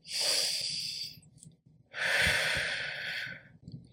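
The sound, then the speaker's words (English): Two slow, deliberate breaths taken mindfully, each a soft airy hiss lasting about a second, separated by a short quiet gap, with faint low rumbling underneath. “Taking a moment to breathe. Breathe it in. It will bring you present. When you mindfully breathe in that air, not just start breathing, panicking, but when you mindfully take a breath”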